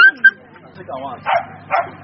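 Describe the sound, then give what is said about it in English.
Stray dogs bark in Sierra Leone, giving a few short, sharp barks and high yips, some with a whining, whimpering edge. “The country now has one of the largest stray dog populations in Africa.”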